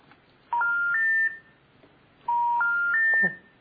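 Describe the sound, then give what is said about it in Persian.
Telephone redial DTMF tones: two bursts of beeps, each a run of three tones stepping upward in pitch, with a pause between the bursts. “احتمالا شماره رو میبینن ریدیال رو بزنیم”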